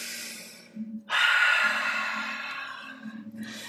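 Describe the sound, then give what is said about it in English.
Deep, deliberate breathing during a guided relaxation exercise: a short inhale, then a long, airy exhale that slowly fades, followed by the start of another breath. “Perhaps a few deep conscious breaths and exhale. Double inhale, one more time.”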